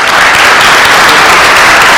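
Loud, dense audience applause welcoming guest musicians, a jazz quartet, at a church worship service, a continuous wash of many hands clapping without pause.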